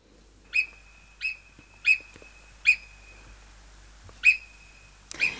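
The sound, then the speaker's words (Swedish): Marmot whistling, the call of a burrowing rodent found in the Alps: five sharp, high, piercing whistles at irregular intervals, each short and clear against near silence. “Rätt svar är murmeldjur”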